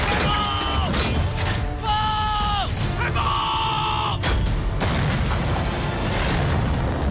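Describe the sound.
Army artillery guns fire on a warship in a continuous, rumbling barrage, with high whistling tones in the middle and sharp, heavy blasts near the end.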